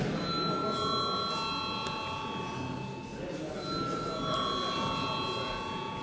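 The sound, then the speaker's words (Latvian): Bell rung in a parliament chamber to call members to a vote: sustained ringing tones with steady overtones, a short drop near the middle, then ringing again at the same level. “Lūdzu zvanu.”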